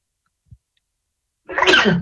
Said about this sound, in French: Ah, excusez-moi, j'ai éternué.